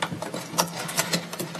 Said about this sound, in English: It labels onto clear plastic overlays that you can stick onto anything. The wheel turns to select the character, and then you squeeze to Braille it.